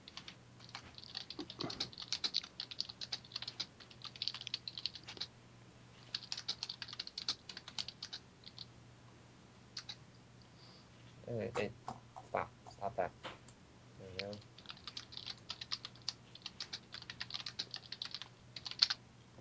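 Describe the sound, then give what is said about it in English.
Typing on a computer keyboard: many quick, light key clicks in irregular bursts with short pauses between them, fairly faint against a quiet low hum. “I'll just type something to you there.”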